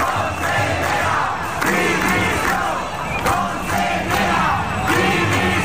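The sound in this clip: A large crowd chants at a public-education teachers' strike demonstration in Valencia, with many voices rising and falling together in a loud, repeated rhythmic chant that continues throughout.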